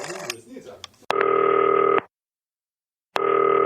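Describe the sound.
A telephone call tone sounds while a call is placed to a listener: after a moment of talk, two long, steady, even beeps of about a second each, separated by a silent pause.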